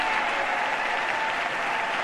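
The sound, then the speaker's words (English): An audience breaks into loud, continuous applause for a line in a presidential speech on equal pay for women. Dense clapping fills the moment in an even, unbroken roar. “this was a huge applause line, and right about this time, the cameras cut away from the president”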